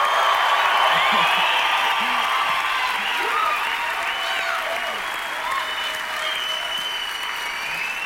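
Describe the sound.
Sustained applause from a church audience honoring people baptized the week before, with scattered whoops and cheers rising above steady, loud clapping throughout.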